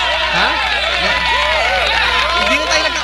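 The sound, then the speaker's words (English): A noisy in-studio audience keeps up a loud, continuous babble of many overlapping voices, with shouts and whoops rising and falling through it. “Ang ingay talaga ng audience natin. Ang ingay talaga.”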